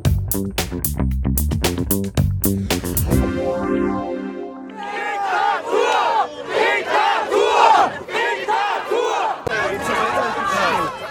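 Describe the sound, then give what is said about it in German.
Loud massed chanting and shouting from a crowd at a street demonstration against Covid measures in Germany, rhythmic and sustained. It comes in after several seconds of tonal music. “So klang es letztes Wochenende in vielen deutschen Städten bei den Demonstrationen gegen die Corona-Maßnahmen.”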